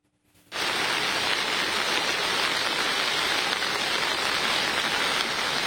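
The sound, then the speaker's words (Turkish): Heavy downpour rain in a flooding storm in Sakarya, a dense, loud, steady hiss that starts abruptly after a moment of near silence and continues unbroken. “Sağanak her geçen dakika etkisini artırdı.”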